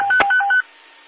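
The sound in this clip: Telephone keypad tones beep in a quick run of a few short dual-tone presses with a brief click among them, then cut off abruptly into a faint, steady hiss.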